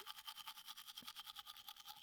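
Toothbrush scrubbing inside a mouth, with many fast, even strokes in a steady rhythm. The brushing is soft and quiet, and no voice is heard.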